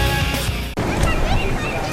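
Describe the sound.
Water splashes and sloshes in a swimming pool on a summer day, a steady, dense wash of noise with one brief dip before the splashing carries on.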